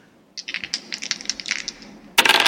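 Dice being rolled: a rapid run of small, bright clicks and clatters that ends in a sudden louder burst of rattling.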